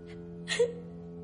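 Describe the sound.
A young girl starting to cry: a brief soft whimper, then a short breathy sob, heard over a steady sustained tone.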